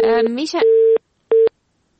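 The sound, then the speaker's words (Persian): A telephone busy tone after a radio call-in line dropped: a steady, mid-pitched electronic beep comes in two bursts separated by a silent gap, following a brief stretch of speech. “خب متاسفانه که تماس ما با آقای رفعت قطع شده”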